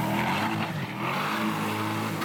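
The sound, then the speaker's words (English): Loud, continuous engine roar from a Corvette E-Ray hybrid sports car with a big rear-mounted gas engine and a small front electric motor, sustained and raspy throughout. “if you're looking for something sportier, the new Corvette E-Ray has a big beast of a gas engine in the back”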